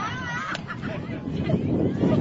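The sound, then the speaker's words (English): Wind buffets headset microphones during a baseball game, making a steady, dense rumble and hiss that grows slightly louder toward the end, with voices mixed into the noise. “You can hear the wind picking up in our headsets.”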